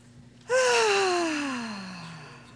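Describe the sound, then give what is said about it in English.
A deep voiced exhale, like a long sigh, as an audience takes deep breaths. It begins loud and slides steadily down in pitch over about two seconds before fading. “Stand up just a second. Take a couple of breaths.”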